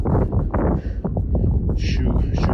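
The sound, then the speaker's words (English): Wind gusts across an exposed spot, buffeting the microphone with a loud, steady low rumble and rushing hiss that stays strong throughout, while a muffled voice is heard under it. “It's pretty windy here, pretty exposed.”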